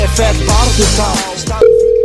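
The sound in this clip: A steady, single-pitched telephone tone on an outgoing call starts after a stretch of talk and holds unbroken to the end.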